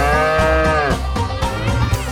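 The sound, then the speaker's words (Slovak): A cow moos in one long, loud, low call that sags in pitch and turns rougher and noisier toward the end. “trošku country, keď započujete kravu,”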